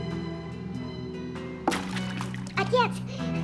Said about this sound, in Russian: Я плыву к тебе! А вот на нашей сцене и океан.